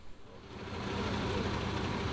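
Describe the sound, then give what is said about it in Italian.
A coach bus engine idles in the Foce area before departing with a group of Alpini. The low, steady rumble grows a little louder after the first half second and then holds even. “Come potete vedere, il pullman in partenza è”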